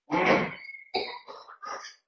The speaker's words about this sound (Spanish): Ah, creía que era una tos voluntaria. Sí, no, es involuntaria.